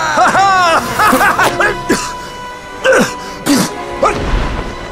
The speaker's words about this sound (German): Oh, ein Hustenanfall.